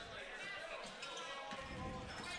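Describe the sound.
Basketball dribbled down the court during a boys' high school game: faint, quick bounces under a steady wash of crowd noise and voices.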